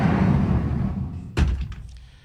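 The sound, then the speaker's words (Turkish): A door is pulled shut with a single solid thud, preceded by a stretch of steady background noise and followed by a short, fading rattle. “Kapıyı da arkadan çeker misin lütfen?”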